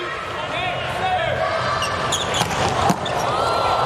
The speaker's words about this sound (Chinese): 石川状态回暖，哈内斯的发球，